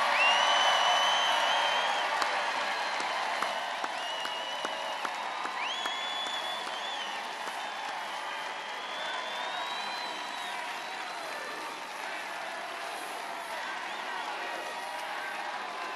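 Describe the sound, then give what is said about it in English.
Sustained crowd applause and cheering for law enforcement at a Trump rally in Jacksonville, Florida: dense, steady clapping with scattered high whistles and whoops, loudest at the start and easing slightly. “Law enforcement, let's give them a hand, please.”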